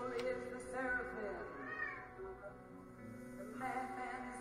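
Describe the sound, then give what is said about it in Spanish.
A house cat meowing: faint, drawn-out meows whose pitch climbs and then falls, with a voice present alongside them. “de verdad tengo el gato más puto pesado del universo. Cuando no está en la cámara, está por ahí maullando, tocando los cojones.”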